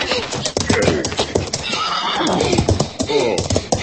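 A pony whinnies while its hooves clip-clop rapidly in a Western setting, with a loud, wavering neigh rising over a continuous stream of hoof beats.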